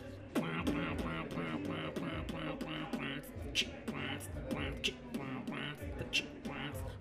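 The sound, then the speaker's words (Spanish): Vocal percussion by a female hip hop artist during an interview, a steady run of evenly spaced clicks and pops mixed with voiced tones, kept fairly quiet. “Sí, pues, pero háceme un beatbox, sí.”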